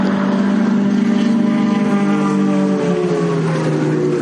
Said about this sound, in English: That noise was actually three vehicles.